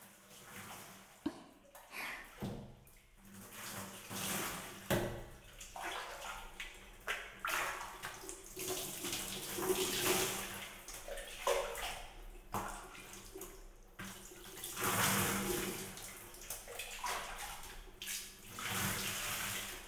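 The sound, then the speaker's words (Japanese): Hot spring water is poured over a person's back before bathing. The splashing is soft and continuous, with a few louder gushes, and stays faint throughout. “まずは軽く掛け湯をしてから温泉を楽しむとしましょうか。背中の方から流していきますね。”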